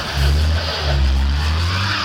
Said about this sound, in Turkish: Yağmurda biraz gazı fazla veriyorlar, arabayı patiye düşürüyorlar.